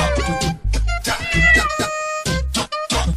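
Repeated cat meows, loud and clearly voiced, come as a quick string of several calls with short gaps between them and no talk over them.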